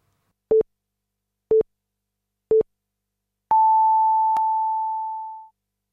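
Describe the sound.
Radio time signal marking midnight: three short, identical beeps evenly spaced one second apart, then a longer, higher-pitched tone that sustains and gradually fades out over about two seconds.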